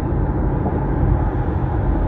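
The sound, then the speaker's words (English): A truck driving right beside the speaker produces a loud, steady, low rumbling roar of road noise that holds even throughout, with no voices. “there's a truck beside me, it says Rhema Transportation”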